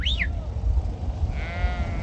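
A flock of sheep bleats on a hillside beside empty trenches and bunkers. A short, high, wavering bleat comes first, then a longer, quivering bleat later, both over a steady background rush.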